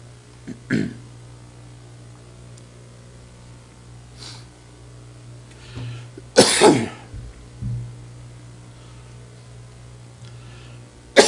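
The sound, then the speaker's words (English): A speaker who has choked mid-sermon has a coughing fit: several separate coughs and throat-clearings are spread over eleven seconds, with quiet gaps between them and a loud, harsh cluster near the middle. “Excuse me just a minute. Kind of got choked.”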